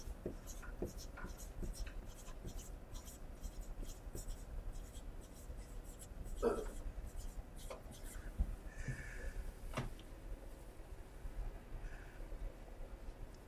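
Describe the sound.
Letters written by hand in a reversed sequence: faint, irregular scratching and tapping strokes, with a few slightly louder squeaky marks scattered through a quiet background.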